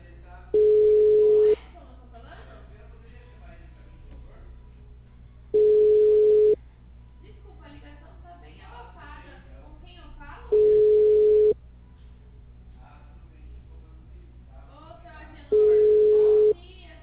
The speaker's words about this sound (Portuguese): Deixa eu ver se eu consigo ligar.